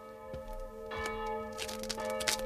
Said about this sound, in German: Dann aber lenkte mich eine Glocke ab.